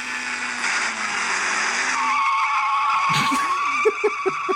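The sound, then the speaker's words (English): A Ferrari sports car drives with a loud, sustained high-pitched engine whine and tire squeal. The sound shifts to a steadier, lower tone midway, then ends with a few short squeaky chirps. “First of all, that's him. That's him driving the Ferrari.”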